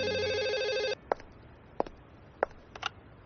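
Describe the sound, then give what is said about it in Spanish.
A telephone in a hotel rings with an incoming call: one loud, trilling electronic burst lasting about a second, then it stops and a few sharp, separate clicks follow in near silence. “la operadora del presidente Chapultepec me dio paso a una llamada que no olvidaré jamás.”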